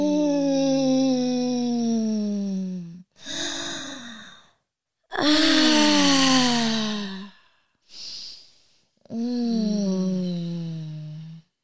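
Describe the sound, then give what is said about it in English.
Breathy, drawn-out moans from a person during a guided meditation: four long voiced moans, each sliding down in pitch, separated by short pauses, with a quick breath between the last two. “This is a meditation with moans in it. Try it. It feels good. It feels good to have like ecstasy moans just in the middle of day”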